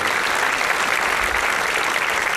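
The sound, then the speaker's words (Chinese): Audience applause greets a Sichuan opera crossover performance, a steady and dense wash of clapping that stays level from start to finish. “也把这份川剧的鲜活与朝气带到了现场，掌声有请跨界表演古蜀天边行。”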